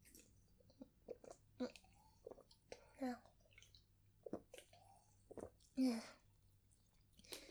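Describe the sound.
Someone drinking a beverage in big gulps: many faint, wet swallowing and slurping sounds in an irregular rhythm, quiet throughout.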